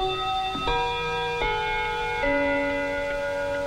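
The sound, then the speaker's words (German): A grandfather clock chimes in a club, sounding a few clear, ringing strikes that step down in pitch one after another, each tone lingering over a soft background hum. “Im Club läutet die Standuhr.”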